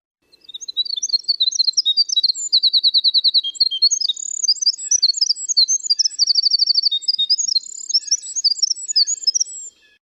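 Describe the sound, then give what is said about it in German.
Winter wren song: a long, high, rapid cascade of twittering notes and buzzy trill passages, running almost unbroken for about nine seconds, loud and alone. “Wenn wir uns als nächstes den Winterzaunkönig anhören.”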